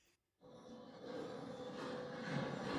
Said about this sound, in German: Wir stehen jetzt am Bandaufstieg und äh, ich sage eben der Leitstelle Bescheid, dass die die Bänder laufen sollen, laufen lassen sollen. Leitstelle einmal Bänder laufen lassen.